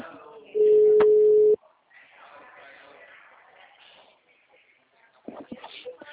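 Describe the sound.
A telephone call tone sounds as one steady, loud beep lasting about a second, followed by quiet shuffling and faint voices.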